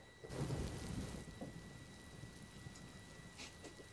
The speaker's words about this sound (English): Is that like computer rain? Oh yeah. Yeah, it's computer rain.